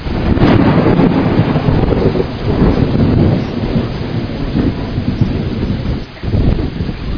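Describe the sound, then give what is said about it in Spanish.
Thunder rolls through a September storm with wind and rain, a loud continuous low rumble that swells and eases over hissing rain and wind buffeting the microphone, with no talk. “Hoy es septiembre y justo está empezando el trueno. Mira cómo se está aclarando ya. Yo dije que con este viento, eso, ahí viene otro rayo.”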